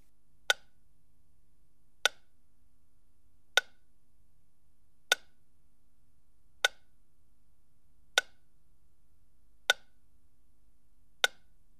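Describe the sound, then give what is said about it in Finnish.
Ticking test sound played from the right front speaker: eight sharp, evenly spaced ticks about a second and a half apart, each crisp and bright, alone over near-silence. “Seuraavan tikityksen pitäisi kuulua oikeasta etukaiuttimesta.”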